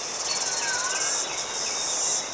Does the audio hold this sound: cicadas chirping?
yes